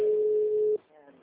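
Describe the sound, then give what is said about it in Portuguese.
A single long, steady ringback tone on an unanswered phone call to a woman sounds clearly for under a second before a voice begins talking. “Tô ligando pra ela, não atende.”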